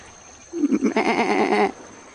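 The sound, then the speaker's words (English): A goat bleats once: a loud, trembling, wavering cry lasting just over a second, alone without voices. “Sounds like... It is. A goat. It's a goat.”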